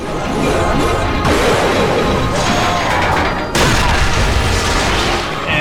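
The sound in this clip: Heavy crashing and smashing as statues break apart in a video game, with dense, loud booming impacts that run almost without pause and fresh bursts of crashing near the start and just past the middle.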